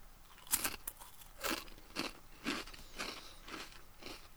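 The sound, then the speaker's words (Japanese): Crunchy chewing of a bite of food, with sharp, crackling crunches repeating in a steady rhythm, fairly faint and without talk. “もうちょっとじゃあ、一口食べますね。ということで、いただきます。”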